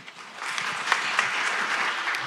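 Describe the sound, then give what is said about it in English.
A crowd at a public meeting with government ministers breaks into applause, a steady, dense wash of clapping with a few sharper claps and faint cheering mixed in, sustained throughout. “Cheers breaking out several times during audience questions, while Ministers Nate Glubish and Dale Nally”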